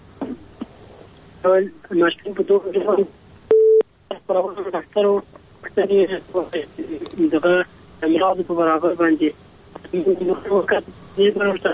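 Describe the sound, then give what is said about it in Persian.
During a radio phone-in, a short, loud electronic phone tone sounds as a caller's line is cut off. Voices talk steadily before and after it. “د دوی اړیکه پرې شوې او بل اوریدونکو لرو”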